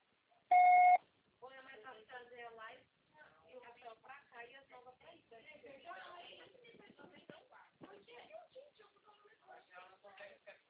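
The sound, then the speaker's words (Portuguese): A voicemail system's beep sounds as one short, loud, steady electronic tone about half a second long. Continuous talking follows it. “Grave seu recado. O sucessor será tarifado após o sinal.”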